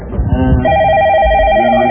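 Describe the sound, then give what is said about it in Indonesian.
An incoming call sets a telephone ringing with a loud, steady electronic tone held evenly from just under a second to the end, after a brief low murmur at the start. “Kok ini ada telepon masuk? Saya terima dulu satu telepon, boleh ya?”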